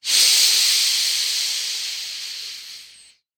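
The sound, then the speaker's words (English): A forceful exhale in a lower belly breathing exercise: one long, loud, breathy hiss that starts strongly, slowly tapers over about three seconds, and then cuts off. “contract on the exhale, pulling your belly in, pushing the air out, push, push, push, squeeze, push”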